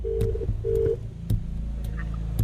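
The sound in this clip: A telephone is dialed to place a call: two short, steady beeps sound among several evenly spaced sharp clicks over a faint low hum, all fairly quiet.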